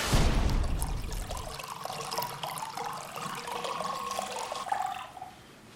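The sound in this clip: Chardonnay wine is poured, starting with a loud splashing gush, then a steady gurgling stream with bubbling liquid tones that ends abruptly.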